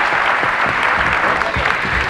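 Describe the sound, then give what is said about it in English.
Dense, continuous audience applause keeps up at a steady, loud level from start to finish, a thick wash of many hands clapping together. “All the people who are clapping”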